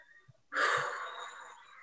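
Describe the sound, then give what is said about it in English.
A single deep breath during a guided energy-clearing session, a soft, airy inhalation that swells suddenly and then tapers off slowly, faint and alone after a few tiny taps. “One more deep breath. Okay, one more deep breath.”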